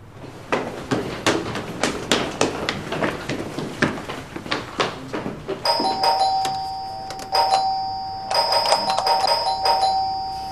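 A doorbell rings at a house in a few electronic chime bursts, each a bright held tone. Before the bell comes a long string of sharp, irregular clicks or taps.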